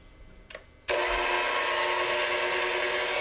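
An electric hand mixer beating waffle batter starts abruptly after a quiet moment and a soft knock, then holds a loud, steady, even whir to the end.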